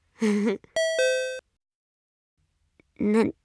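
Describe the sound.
A two-note ding-dong chime, a bright tone stepping down to a lower one, rings cleanly for about half a second between short bursts of voice before and after.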